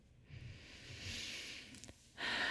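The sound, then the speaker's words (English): A slow, deep breath taken during a guided breathing exercise: a long, airy, hissing draw of air followed by a louder, fuller rush of breath at the end, heard alone without talk. “One more wiggly breath.”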